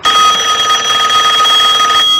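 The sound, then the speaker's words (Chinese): A telephone rings in an old house, a loud, steady electronic bell tone holding for about two seconds before it cuts off, with no voices. “这一天老宅子里的电话响起来了”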